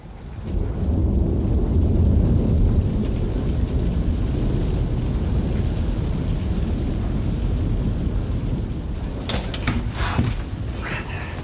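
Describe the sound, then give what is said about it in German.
Thunderstorm with rain: a dense, steady roar of rain and wind holds throughout, and a few sharp crackles break through near the end. “Aber beeilen Sie sich. Gleich gibt's ein Gewitter.”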